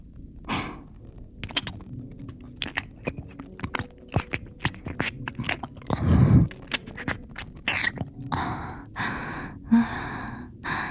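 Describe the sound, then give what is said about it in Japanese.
Wet sucking sounds close at the ear: many short smacks, slurps and clicks in an irregular rhythm, broken by breathy sighs and gasps. “まずは吸ってあげましょうか、そのかわいいかわいい耳の穴からね。”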